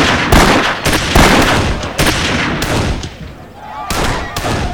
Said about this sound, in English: so that once again, 12 shooters moved up to the firing line. The 12 were cut to six for the third round.